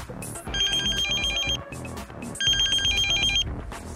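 A hospital pager beeps in two loud bursts of rapid, high electronic trilling tones, with a short pause between them.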